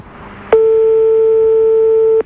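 A telephone line's ringing tone during a call: one steady, unbroken electronic tone lasting under two seconds, rising abruptly out of low background hiss and cutting off just as sharply.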